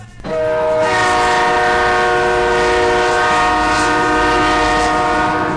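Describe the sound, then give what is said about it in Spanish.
A train horn blows in one loud, steady, sustained blast that starts after a brief moment and holds an unchanging tone to the end. “Esa bocina me está dejando sordo. Sordo me está dejando.”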